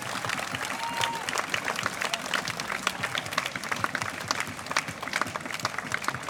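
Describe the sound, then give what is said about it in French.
Audience applause for cyclists on stage in Brussels who have ridden from Berlin, a dense, even patter of many clapping hands that runs steadily throughout, with faint crowd murmur beneath. “Je pense qu'on peut les applaudir, ils ont beaucoup de terrain jusqu'ici.”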